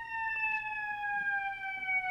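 Emergency vehicle siren passing: a steady, loud, high tone rich in harmonics, holding for the whole stretch with its pitch sliding slowly downward, with no voices.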